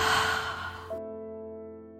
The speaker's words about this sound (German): Noch einmal tief einatmen und wieder ausatmen.